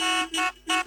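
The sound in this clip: Car horns honk in celebration of a national victory, three short, bright blasts in quick succession.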